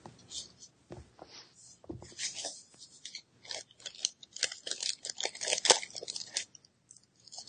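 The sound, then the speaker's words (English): Plastic Zyrtec bags, each wrapping an individual action figure, rustle in quiet, irregular bursts of crisp crinkling throughout. “If you hear this rustling, she wrapped all of these figures individually in Zyrtec bags, so I kept the correct accessories with the correct people.”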